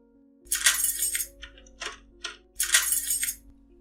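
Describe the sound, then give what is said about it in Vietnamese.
A padlock clinks and rattles against an iron door in a prison cell block. Several bright metallic jangles come in two main clusters with smaller taps between them, over a faint steady low hum. “Tiếng ổ khóa va chạm vào cánh cửa sắt khẽ vang lên, phá tan bầu không khí im lìm.”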